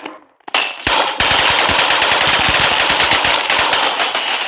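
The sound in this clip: Automatic gunfire rattles through a battle in the Roblox video game. After a brief quieter opening, loud, rapid shots fire in a dense, unbroken stream, with many sharp cracks in quick rhythm.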